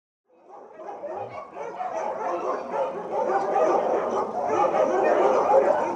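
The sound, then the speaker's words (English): White Samoyed dogs bark outdoors at a house, a dense chorus of many overlapping barks and yips that swells from faint to steady and fairly loud, with no talk. “You can hear the white Samoyeds barking.”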